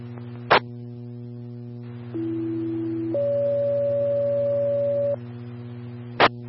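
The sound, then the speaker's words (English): Radio test tones for County Quad 1 on a southbound channel: a sharp click, then a steady lower tone for about a second and a higher tone for about two seconds, all over a constant low hum, ending with another click. “Southbound, stand by for test tone.”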